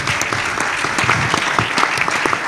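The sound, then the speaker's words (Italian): Audience applause: a crowd clapping loudly and steadily, with many sharp overlapping claps forming a thick, sustained patter from start to finish. “grande, grandissimo applauso”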